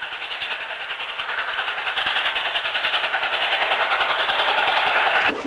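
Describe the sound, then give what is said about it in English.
Train rolling across a desolate, snow-covered landscape: a steady, rhythmic clatter of wheels on rails with a mechanical rumble underneath. It grows gradually louder and cuts off sharply just before the end. “In the distance, the train rolls across a desolate, snow-covered landscape.”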